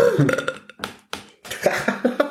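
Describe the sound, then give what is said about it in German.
A loud, croaking burp breaks into several rough bursts over two seconds and is heard alone, without talk. “Wenn du nicht rülpst, dann weiß ich immer nicht, wann zu Ende ist.”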